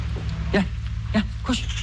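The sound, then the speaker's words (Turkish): Orphaned young lambs being bottle-fed bleat in three short, wavering calls spaced irregularly over a steady low hum. “İki tane kuzumuz var. Anneleri ya, ölmüş. Şimdi parmağımızla onları alıştırıp sonra kuzu biberonuyla... Kuzu besliyoruz efendim.”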